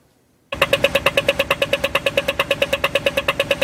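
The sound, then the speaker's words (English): Rhythmic ticking from an Australian pedestrian crosswalk signal at a street corner, heard after the walk sign turns on. After a brief silence, a fast, steady run of sharp, bright ticks repeats at an even pace throughout. “when you're on a street corner in Australia, you press the button, and then when the walk sign turns on, you hear this like rhythmic sound”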